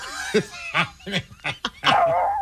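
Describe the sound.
Dogs bark in a run of several short, high-pitched yips and barks at an uneven pace, ending in a longer whining bark, with no voices heard.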